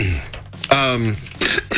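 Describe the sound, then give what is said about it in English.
A woman with a cold coughs and clears her throat in a few short, rough bursts, with a voiced vocal sound between them. “We'll get her coughed up here in a second.”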